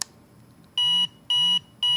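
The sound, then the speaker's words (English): A power bank beeps three times to show its remaining charge: evenly spaced, high-pitched electronic tones, each about a quarter second long and paired with a low vibration buzz, with silence in between. “it vibrated and beeped 3 times to let you know how much power is left in the power bank.”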